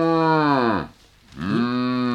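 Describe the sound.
An ox lets out two deep moos: the first falls in pitch as it fades, and after a short break the second swells and rises before holding steady.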